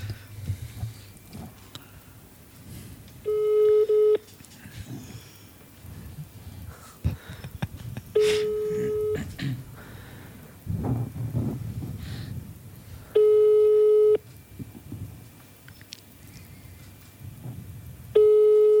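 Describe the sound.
Ringback tone of an outgoing telephone call that rings out unanswered. About four evenly spaced electronic tones, each roughly a second long and about five seconds apart, with crackly line noise between them.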